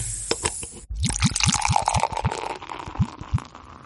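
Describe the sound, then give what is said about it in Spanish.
A beer is opened with a short fizzy hiss, followed by many rhythmic, gurgling glugs as the liquid pours out in quick succession. “Bueno, ¿abrimos un cheve? Sí, señor, abrimos una”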